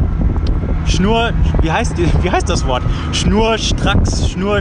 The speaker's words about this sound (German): halt schon sehr windig. Man merkt, es ist auf der Autobahn einfach windig.